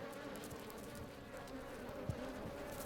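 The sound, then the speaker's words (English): Native Japanese honeybees buzz at their hive inside a hollow tree, a faint, steady, continuous hum that holds an even level throughout, with one brief tick near the end. “These two are honeybees. They made their hive in a hollow tree.”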